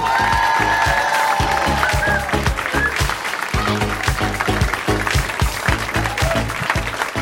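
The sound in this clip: Sustained, dense audience applause with cheering at a stand-up comedy show, greeting a comedian. It stays loud and steady throughout, with no break.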